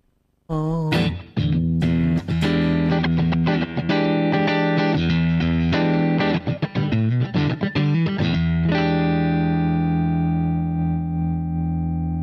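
An electric guitar plays through a clean effects preset: many plucked notes and chords ring out loudly with echo and reverb, then a final chord sustains and slowly fades.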